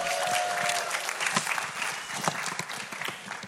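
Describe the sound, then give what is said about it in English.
Audience applause for couples planning to marry within the year: a crowd claps in a dense, continuous burst that stays fairly loud for a few seconds, then tapers slightly. “Who's getting married here in the next year? There's a few couples. You got, yay. Give them a hand.”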